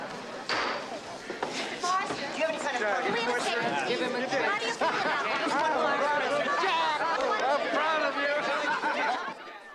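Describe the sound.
Courtroom crowd bursting into chatter after a not-guilty verdict: loud, dense, overlapping voices, sustained at an even level throughout.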